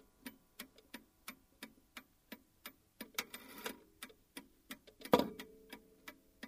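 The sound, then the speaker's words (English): A clock ticks in many soft, regular beats. A brief rustling noise comes partway through, and one louder, low bump sounds near the end. “If you're near a clock that makes this noise,”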